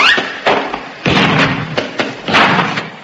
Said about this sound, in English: Pop out and fill up the scuttle. settle with some more uranium? Oh, all right. I'll just chuck this last bit on the fire.